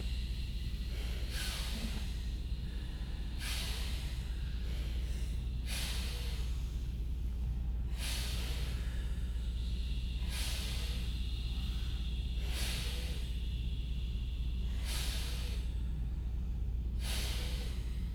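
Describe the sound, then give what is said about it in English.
Long hissing breaths drawn into the belly during a relaxation breathing exercise. Many breathy bursts repeat in a slow, even rhythm over a steady low hum, with no talking. “Long, hissing breath into the belly. Inhale, belly expands. Exhale, the belly drops down.”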